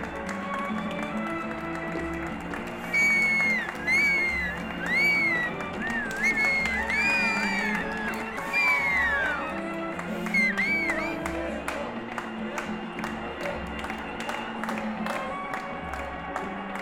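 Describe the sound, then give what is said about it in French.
A huge crowd celebrates France's 1998 World Cup win on the Champs-Élysées. Shrill whistles bend up and down over a continuous roar of cheering, clapping and scattered taps, and the dense din runs unbroken for about seventeen seconds. “Un monde de dingue est venu aux Champs-Élysées fêter la victoire, accueillir les joueurs et manifester leur foi.”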